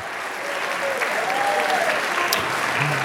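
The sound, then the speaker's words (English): New students applaud themselves at a welcome address for their institution, a dense, steady round of clapping from a large crowd that stays level and loud from start to finish. “the dopest newcomers in our institution, our new students. Give yourselves a hand.”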